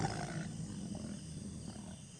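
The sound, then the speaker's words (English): A tiger roaring as it runs away, heard as a low, rough, sustained growling roar. It is fairly quiet and sits over a steady background hiss. “The tiger runs away.”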